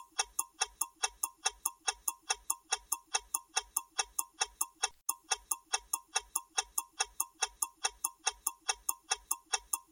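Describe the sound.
A countdown clock ticks through a ten-second quiz countdown: a fast, perfectly even run of many crisp, bright ticks, with no talk.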